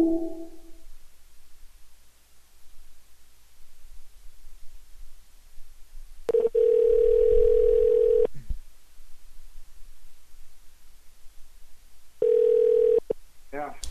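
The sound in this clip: Voicemail beep tones on a phone line: a brief tone at the start, a steady beep lasting about two seconds, and a shorter matching beep later, all over faint line noise.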